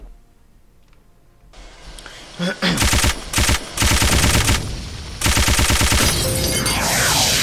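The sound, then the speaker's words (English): Machine gun fire in a video game: after a quiet opening, loud rapid-fire bursts of automatic gunfire begin about a third of the way in, broken by short gaps before a final sustained stretch. “Missile was supplied. Machine gun.”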